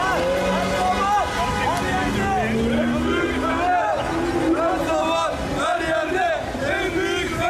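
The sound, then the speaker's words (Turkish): Fenerbahçe supporters celebrate in a car convoy after their team qualified for the Champions League. Continuous crowd chanting and shouting blend with vehicle noise in a dense, unbroken roar. “Araçlarıyla konvoy oluşturan Sarı Lacivertli taraftarlar saatlerce marş eşliğinde kutlama yaptı.”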